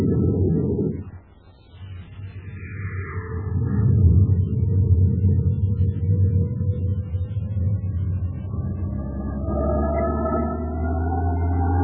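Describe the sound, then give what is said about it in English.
Deep roar of a rocket engine firing at launch. It starts with a brief drop near the beginning, then swells into a loud, sustained low rumble that holds steady to the end. “Fire rocket.”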